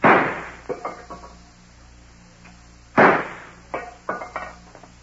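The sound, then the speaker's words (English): Pistol shots from a German Luger fired at tin cans propped on a fallen log in a hill-country clearing. Two loud sharp reports, each followed by a few smaller sharp knocks, with no talk. “A man is standing in this clearing, firing a pistol at a string of tin cans that are propped on a fallen log.”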